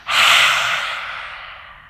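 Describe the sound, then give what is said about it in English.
A deep exhale through the mouth during a yoga stretch, a single loud airy rush of breath that starts abruptly and then fades slowly over about two seconds. “Again, huge breath in. Release the tongue with the exhale.”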